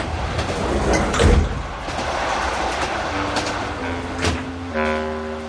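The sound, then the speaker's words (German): A train compartment's sliding door is pushed open with a rolling scrape and a few dull knocks over a continuous rumbling train background. A faint steady hum comes in toward the end. “Die Tür zum Abteil wurde aufgeschoben.”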